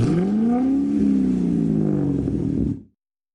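A car with a modified, oversized exhaust revs loudly in a harsh, rumbling roar whose pitch climbs slightly, then sags gradually before it cuts off abruptly after nearly three seconds.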